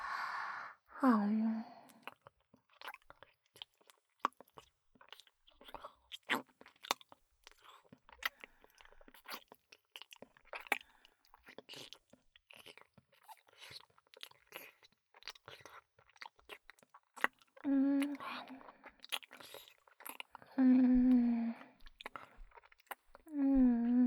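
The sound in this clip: Chewing food while eating: many crisp, crunchy bites and wet mouth clicks in a steady rhythm, with brief murmured vocal sounds near the start and again toward the end.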